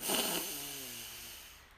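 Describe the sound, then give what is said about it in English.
A deep in-breath taken during a guided belly-breathing exercise: a faint, breathy, slightly rasping intake that is strongest at the start and then thins out and fades. “So deep breath in”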